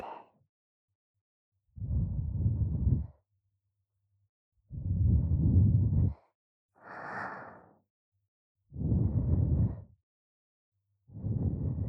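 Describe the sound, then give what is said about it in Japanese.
Soft puffs of breath blown out gently: about six short, airy bursts spaced by silent pauses, each a muffled whoosh, with one in the middle higher and hissier than the rest. “ふうしたら、どんな反応するのかな。”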